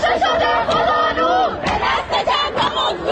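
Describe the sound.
A protesting crowd chants at a university in Iran in solidarity with Sistan, a continuous, loud mass of voices shouting slogans together in rhythmic phrases.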